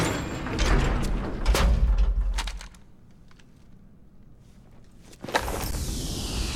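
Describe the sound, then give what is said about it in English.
An elevator door sliding shut in a video game, a broad rumbling whoosh that cuts off into near quiet, followed by a sharp new burst of noise. “Lady Soldier throws off her mask, and the elevator door closes.”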